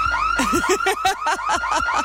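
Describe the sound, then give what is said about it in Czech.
Car alarm going off with a loud, steady series of rapid electronic chirps and warbling tones repeating in a regular rhythm, high pitched and insistent, with no talk over it. “Vypněte to, prosím vás, někdo! Ten alarm. Vypni to, vypni to!”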